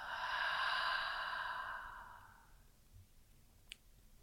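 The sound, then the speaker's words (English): A single deep, breathy exhale during yoga breathing practice, loud at first and slowly fading over about two seconds, followed by quiet and one faint click. “Another one, inhale and exhale.”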